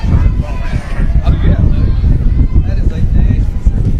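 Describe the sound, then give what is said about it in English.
Wind buffets the microphone at an outdoor softball game, a loud, steady low rumble filling the whole clip beneath a person talking. “Is the wind really picking up right now?”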